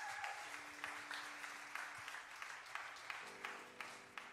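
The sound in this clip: Quiet applause from a church audience welcoming a pastor, a soft, steady patter of hands with an even, regular beat throughout.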